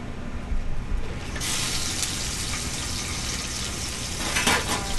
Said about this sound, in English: You have to warm up the pan with oil.